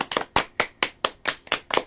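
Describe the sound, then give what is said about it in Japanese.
Audience applause for a band on an internet radio show: a steady, evenly spaced series of sharp, crisp claps with no talk over them. “今日はいつにも増して拍手が熱いですね。”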